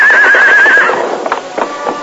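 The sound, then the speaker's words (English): A horse neighs loudly with a high, quavering whinny, then its hooves clip-clop in a few uneven steps as it starts down a rocky slope. “Finally, the horse started downhill. Then, without warning, the animal lost its footing.”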